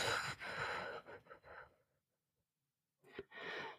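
Soft, airy exhalations from a person doing a guided breathing exercise: one breath out lasting over a second fades into silence, and another breath begins near the end. Both are faint.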